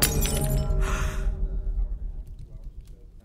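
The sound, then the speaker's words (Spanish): A wine glass shatters in a hand and spills liquor onto leather clothing, a brief bright crash followed by near silence. “a una de las prostitutas que lo agasajaban se le rompió una copa en la mano, derramando todo el licor en el atuendo de cuero”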